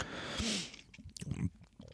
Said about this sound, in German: Ja, und man spürt die Ingwerstückchen im Mund. man kann fast drauf beißen. Mhm. Also da ist schon echter Ingwer drin.